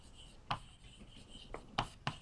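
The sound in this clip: Someone writes on a board during a physics lecture, with a few faint, quick scratching strokes. One is isolated and the others are bunched close together.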